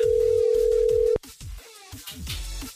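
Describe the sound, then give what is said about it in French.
A steady telephone dial tone drones for about a second before being cut off abruptly as a call is placed, followed by a few short beeps over a rhythmic low pulsing beat. “C'est parti, on y va, on appelle.”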